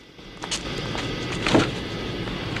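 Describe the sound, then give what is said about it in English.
A passenger door of a green people carrier is opened and a case is put inside, giving a few dull knocks and shuffles over steady background hum, with a slightly louder thump near the end. “The porter opens the passenger door and puts the case in.”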